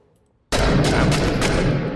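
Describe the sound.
Gunfire in a military shooter video game set in urban combat: a sudden, loud, dense burst of rapid shots with several sharper cracks inside it, sustained for about a second and a half.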